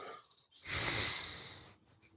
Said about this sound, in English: Relax, dear. Take slow, deep breaths.